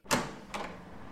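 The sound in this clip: A door opens as a visitor comes in, giving two short clunks about half a second apart, the first louder, followed by a soft steady rustle.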